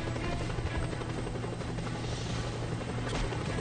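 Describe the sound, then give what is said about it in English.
A helicopter's rotor drones steadily in a video game, a continuous buzzing whir at even, fairly low loudness with no talking over it. “So are you flying the helicopter and then dive and hanging out underneath it?”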